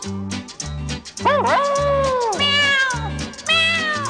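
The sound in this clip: Cat meows in a children's rhyme song: several drawn-out, wavering calls that rise and fall in pitch, loud over a steady, pulsing musical backing.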